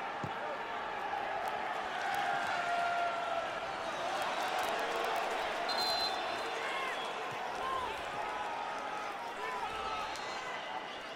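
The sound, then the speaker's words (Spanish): Tigres supporters in a football stadium begin cheering, a dense, steady crowd roar with scattered shouts and claps that holds at an even level throughout, while a voice talks over it. “Y la porra de Tigres empezando a animar a los suyos.”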